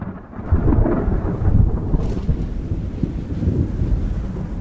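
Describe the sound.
Rolling thunder from a thunderstorm with dark clouds: a deep, continuous rumble that stays loud for the whole stretch and swells in a few broad waves, with a faint rain-and-wind wash underneath and no voices.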